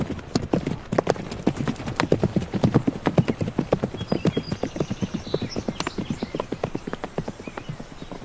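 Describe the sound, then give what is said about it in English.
Hooves trotting in a steady, even clip-clop, many quick hoofbeats keeping a regular rhythm throughout, with a faint whinny-like sound partway through. “And so, Kassi and Kaloo trotted off together, side by side”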